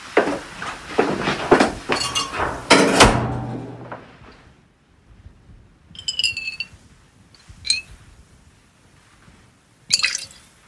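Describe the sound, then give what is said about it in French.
Essential oil is poured into a glass beaker and then into a small flask, giving bursts of glassy clinks, taps and soft drips separated by brief quiet gaps. “Là, on verse un peu d'huile essentielle dans le bécher. Et puis comme ça, on va mettre ça dans un petit flacon.”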